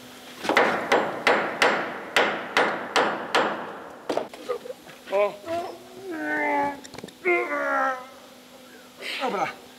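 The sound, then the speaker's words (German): A hammer strikes a screw in a quick, regular run of sharp metallic blows during a repair job. People then talk with high, drawn-out voices. “Hilf mir mal eben. Da musst du nochmal draufhauen. Nochmal, okay.”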